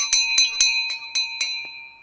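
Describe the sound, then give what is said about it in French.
A small bell rings at the entrance of a 14th–15th century manor in Laval: six bright, evenly spaced strikes ring on, then a faint last tap sounds as the ringing tone fades. “on est accueilli par la, par la clochette”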